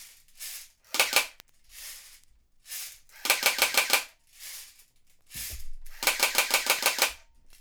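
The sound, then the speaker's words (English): An airsoft gun fires and jams in several rapid bursts of sharp, rattling clicks, broken by softer hissing gaps between the stuttering volleys. “I'm deeply disappointed in this weapon. Yeah, me too. I can't use it in any real airsoft fights because it doesn't work.”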